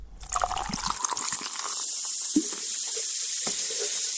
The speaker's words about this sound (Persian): این صدای آشنا که بعید است بعد از شنیدنش در یک روز گرم تابستان هوس نوشابه نکنید، برای تبلیغات نوشابه‌های مختلف استفاده می‌شود.